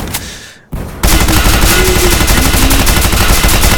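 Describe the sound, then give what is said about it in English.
Automatic weapons and shotguns firing: a quiet stretch, a brief cut-off, then a sudden, loud and unbroken wall of rapid shots that keeps going to the end. “Firing off all kinds of automatic weapons. That's me. This is awesome. Shotguns, as they call it.”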